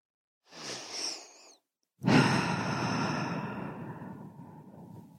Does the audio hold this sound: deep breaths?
yes